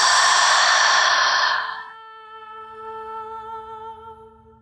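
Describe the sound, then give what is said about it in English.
A deep breath during a guided mindfulness breathing exercise, a loud airy rush lasting under two seconds, followed by soft, sustained tones of gentle background music. “Deeply inhale through the nose. Exhale through the mouth.”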